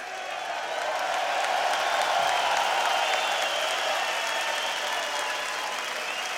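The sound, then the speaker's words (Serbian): Audience applause, a sustained wash of many hands clapping that swells after the first second and holds evenly, loud and dense, for several seconds. “molim vas jedan spontani aplauz podrške još jedan put”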